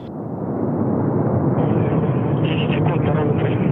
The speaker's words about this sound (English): Let's hear a bit of its takeoff. At maximum thrust. And liftoff. Soyuz MS-18 on its way to the International Space Station.